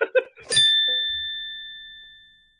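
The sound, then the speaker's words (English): A phone notification dings once after a brief voice, a bright clear tone that rings on and slowly fades over about two seconds. “Was that a phone?”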